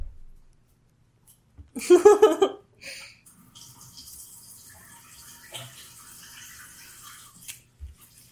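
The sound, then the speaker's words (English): Water runs from a tap while someone washes their hands: a short, loud gush of splashing water, then a quieter, steady trickle and splash that carries on to the end. “I'll go wash my hands real quick.”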